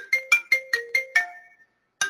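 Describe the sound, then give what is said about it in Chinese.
A phone ringtone signalling an incoming call: six bright, evenly spaced electronic notes over a steady lower tone, a brief gap, then the pattern starting again. “不好意思，我接个电话。”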